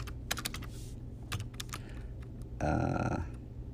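Typing on a computer keyboard while building a website: irregular, crisp key clicks with short pauses between them, ending in a louder, denser burst of clatter.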